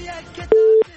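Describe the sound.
A telephone call connecting on a radio call-in show: one short, steady mid-pitched tone sounds loudly just after brief speech.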